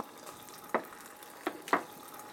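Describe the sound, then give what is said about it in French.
Rigatoni sizzle in a pan with rendered guanciale fat, giving a faint, steady frying hiss broken by a few sharp crackling pops. “Pour le moment, dans la poêle, j'ai juste Merigatoni et le gras du guanciale. Et donc là, déjà, ouais, voilà, elles vont déjà un peu s'imprégner et finir de cuire juste avec le, juste avec le gras”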